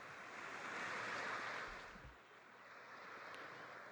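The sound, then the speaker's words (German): Sea waves wash in at the shore with a soft, broad whooshing surge that swells, eases off and rises again. The sound is faint and steady, with no voices. “Plötzlich sitzt er am Meer.”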